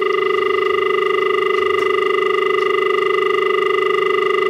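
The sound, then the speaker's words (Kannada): A telephone line tone sounds after a caller is cut off during a radio phone-in: a steady, loud multi-tone hum with a fine rapid flutter, unbroken and without talk. “ಕರೆ cut ಆಗಿದೆ ಅಂತ ಅನ್ಕೊಳ್ತೀನಿ.”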